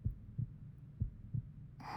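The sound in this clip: A heartbeat heard with chests pressed together: soft, low, muffled thumps in lub-dub pairs, about five beats in all, with a brief breathy hiss at the very end.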